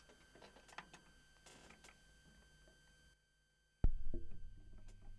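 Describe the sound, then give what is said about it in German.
A stylus is lowered onto a vinyl record on side 2, spinning at 45 rpm. After a brief silence comes a sharp thump as the needle touches down, then a steady low groove rumble with faint crackle. “Wir werden da mal reinhören auf der Seite 2 auf 45 Umdrehungen pro Minute. Ich lege mal die Nadel vorsichtig hin.”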